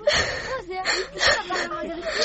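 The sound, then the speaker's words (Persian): A girl crying, from a village where girls talk of being mistreated, with a few halting, whimpering sobs and catching breaths in short voiced bursts, fairly loud, with no clear words. “گریه نکو قربان او چشمایش برد شوام، مرام گریه دادی.”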